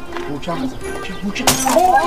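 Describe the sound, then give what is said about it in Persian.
Car window glass shatters in a sharp, bright crash just past the midpoint, with people talking before and after it. “داداش ببین الان سه تا شیشه ماشه تو سرت خورد کردن”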